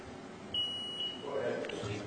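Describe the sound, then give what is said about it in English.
A single steady high-pitched electronic beep lasting about half a second, set against a noisy background with a low murmur. “never been beeped at before. Beeps at us all the time.”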